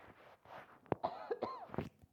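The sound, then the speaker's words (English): A few faint, short, harsh coughs from a preacher mid-sermon, spaced irregularly with a throaty, rasping quality. “Sorry, I'm going to cough here.”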